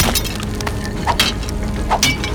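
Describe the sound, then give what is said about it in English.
A sword strikes a wall of rocks covering a trapped person, giving a few sharp metallic clinks and cracking knocks over a steady rumbling bed of noise. “Ninigi stood, raced to the wall, and swung his sword at Sakuya's trap. The blade barely made a dent in the rocks that covered her.”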